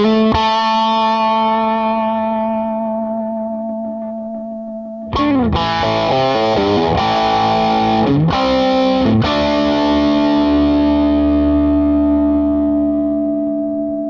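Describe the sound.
Electric guitar through a small Marshall tube combo amplifier without two-stage gain: a distorted chord rings and slowly fades, then several quick re-struck chords give way to a final sustained chord.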